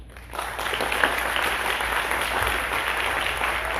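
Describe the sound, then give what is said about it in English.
Applause welcomes visitors at a Sunday morning church service. Steady, dense clapping rises quickly after a short lead-in and holds evenly to the end. “Church family, we give our visitors a hand.”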